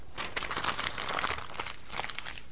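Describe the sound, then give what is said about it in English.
Paper being crumpled and torn by hand, a fairly faint, dense run of dry crackling and crinkling bursts that continues steadily for about two and a half seconds with no voices. “I just destroyed that piece of paper.”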